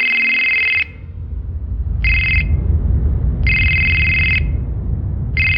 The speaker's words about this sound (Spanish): Pero cuando se disponía a salir, el teléfono volvió a sonar.